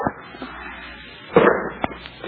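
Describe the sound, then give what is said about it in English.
Gunshots in a tense standoff scene, a few sharp cracks standing out from a low, murky background. “Mr. Slot Machine King, see what the sound of those shots brought you?”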